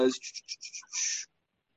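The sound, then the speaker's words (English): Book pages are turned back a long way: a quick run of short, dry paper rustles ends in one longer sweeping rustle, then silence. “turning the page back very far right now.”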